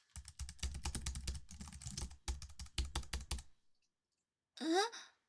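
Rapid typing on a computer keyboard that is not responding: many quick, uneven keystrokes for about three seconds, then silence, followed by a brief breathy sigh.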